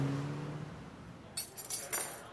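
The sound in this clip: Restaurant ambience at the Waffle on Sunset in Hollywood: a few light glass and cutlery clinks ring out over a faint, steady background hum.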